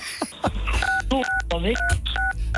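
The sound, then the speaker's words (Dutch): Telephone keypad tones from someone pressing keys during a phone call, with several short, steady dual-pitch beeps in an uneven sequence sounding over continuous talking voices on the line. “Ik hoor steeds iemand die op toetsen drukt, zeg maar.”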